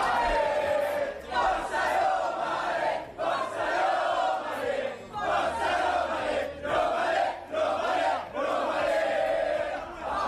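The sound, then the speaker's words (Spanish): A large crowd chants and cheers at an airport to welcome a football player, a loud, dense roar that pulses in a steady rhythmic chant, surging and dipping roughly every second throughout. “El recibimiento en el aeropuerto fue multitudinario, escuchad.”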